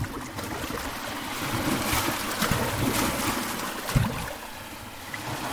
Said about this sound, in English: Paddling.